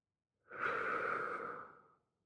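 A single slow breath taken during a seated relaxation exercise: soft and airy, swelling and fading over about a second and a half, alone in quiet.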